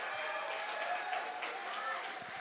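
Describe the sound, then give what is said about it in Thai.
Audience applause at a skincare product sales presentation forms a dense, continuous wash of many hands clapping. It holds a steady level throughout with no breaks. “ปรบมืออีกทีสิครับ”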